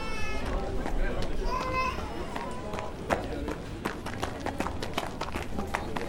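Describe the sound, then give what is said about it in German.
A young girl runs around outside a bakery, her quick footsteps patting and scuffing under raised voices, with a child's voice calling out among them. “Warum rennt deine Tochter rum vor dem Bäcker?”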